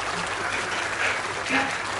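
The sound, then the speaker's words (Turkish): Applause follows a second pide being lifted off a wire grill during cooking. The clapping is steady and continuous, with a couple of slightly louder swells near the middle and end. “Evet ikinci pideyi aldık arkadaşlar. Biz de bunu alkışlıyoruz.”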